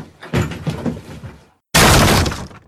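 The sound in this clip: Plasterboard in an apartment being smashed apart: a stretch of rough crunching and cracking impacts, a brief silence, then a louder, dense burst of breaking and crumbling.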